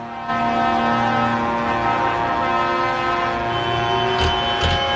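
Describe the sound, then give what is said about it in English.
A vehicle horn honks in one long, loud, steady blare. Its layered, buzzing multi-tone drone holds almost without a break, with a couple of brief surges near the close. “Sounds like honking. The honks have returned. The honking will continue until freedom improves.”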